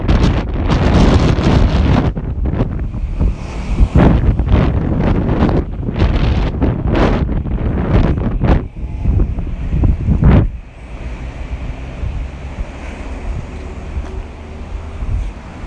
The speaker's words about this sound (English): cross to the other side of the street so that the houses are sheltering me from the wind. It's just getting quite strong.